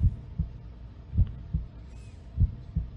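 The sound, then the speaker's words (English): An ominous heartbeat plays in a video game: three deep, muffled lub-dub pairs of low thumps at a slow, steady pace, with nothing else heard. “I probably can't get it on the stream, but there's an ominous heartbeat playing in the background.”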